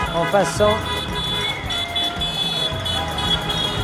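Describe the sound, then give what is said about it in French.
Car horns honk and pots clang in the streets of Barcelona at night, on the eve of the self-determination referendum. Horn blasts and banging run together in a dense, steady din with voices mixed throughout. “les rues de Barcelone sont animées à partir de 10h du soir par les casserolades et par les voitures qui klaxonnent”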